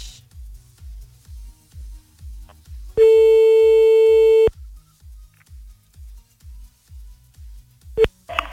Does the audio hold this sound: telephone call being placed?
yes

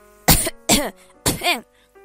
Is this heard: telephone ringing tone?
no

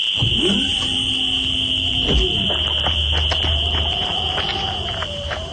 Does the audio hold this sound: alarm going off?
yes

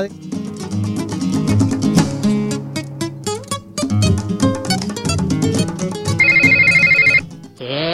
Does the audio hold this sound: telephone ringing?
yes

